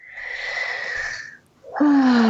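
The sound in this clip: A deep breath: a long, breathy inhale, a brief pause, then a louder voiced sigh on the exhale that falls slightly in pitch.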